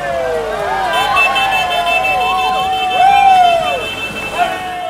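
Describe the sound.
Siren-like gliding tones from a parade of emergency vehicles rolling past a cheering crowd, accompanied by a brass band; the wavering wails hold steady and loud over continuous crowd babble and voices.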